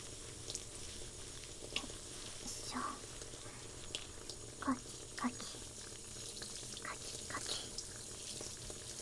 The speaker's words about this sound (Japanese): お湯、あったかいですね。人の髪を洗うのも案外楽しいかも。